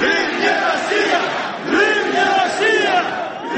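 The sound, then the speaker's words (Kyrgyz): A Crimean Tatar rally crowd shouts in unison, loud repeated chanted phrases coming in regular surges of many voices. “Кечиресиздер, алар Крым Орусия эмес деп кыйкырып турушту.”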